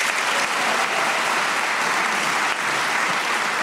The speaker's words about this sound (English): Now, let's meet the teams. Will you welcome first on my right, Hugo Rifkind and Lucy Porter.